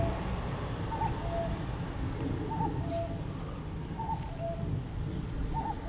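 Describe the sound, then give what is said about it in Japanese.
Cuckoo calls faintly four times at an even pace over steady background noise. Each call is a two-note phrase that drops in pitch. “こかでカッコウが鳴いてますな。”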